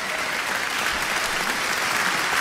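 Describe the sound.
Audience applause at a spelling contest, a dense, steady burst of clapping that stays loud and even for a couple of seconds, with no talk over it.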